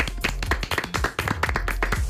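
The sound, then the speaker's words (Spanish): A short, brisk burst of hand clapping for a quiz winner: dense, rapid claps at fairly even loudness through the brief clip. “Vamos a dar un aplauso.”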